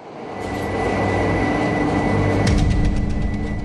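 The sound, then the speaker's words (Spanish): A Tokyo subway train bound for Kasumigaseki departs with a loud, broad rumble that swells over the first second and then holds steady, with no voices. “El tren con destino a Kasumigaseki realizará su salida en breves momentos.”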